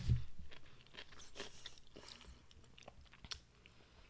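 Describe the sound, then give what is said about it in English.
Crunchy bites into a pickle, followed by chewing, with a few sharp crackling crunches at irregular intervals. The sound is faint and no one talks. “I'm taking a bite.”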